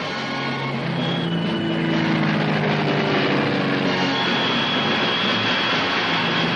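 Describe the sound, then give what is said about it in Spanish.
Light aircraft flying over Fort Knox and releasing gas from tanks under their wings make a loud, steady engine roar and drone that continues unbroken throughout. “Las avionetas vuelan en diferentes direcciones sin dejar de desprender el mortífero gas.”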